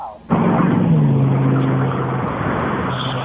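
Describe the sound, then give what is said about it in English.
A Chevrolet Camaro drives off near a strawberry stand, its engine bursting in abruptly after a brief pause and holding a loud, steady low roar with a droning tone that eases only slightly toward the end. “Well, I think a Camaro just drove off.”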